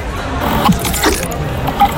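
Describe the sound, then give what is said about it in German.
A ketchup dispenser mechanism at a wine festival gives a few soft mechanical clunks and clicks, spaced out over a steady background noise. “Und es ist ein Ketchup-Spender.”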